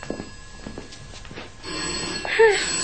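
A telephone rings in a home during a Cantonese drama scene. The ringing starts partway through after quieter sounds and swells into a louder, brighter burst near the end.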